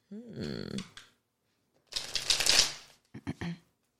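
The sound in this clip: Tarot cards are shuffled for a reading: a riffling burst of about a second follows a brief vocal sound, then a few short card snaps.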